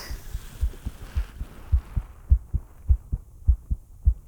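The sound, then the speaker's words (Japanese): A person's heartbeat, heard as a steady series of many low, soft thumps in paired lub-dub beats at an even pace. “ハデスの心臓の音聞こえますか？”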